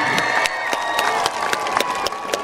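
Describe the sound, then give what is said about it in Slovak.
A large crowd applauds at a record-setting csárdás folk dance event in Slovakia, a sustained rattle of clapping with sharp individual hand claps standing out and general crowd noise underneath. “Ale najväčší potlesk si zaslúžite vy”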